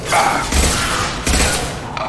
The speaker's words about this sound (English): Let's try this concussive shot.